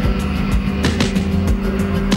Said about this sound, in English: A gate is lifted and the SUV drives through.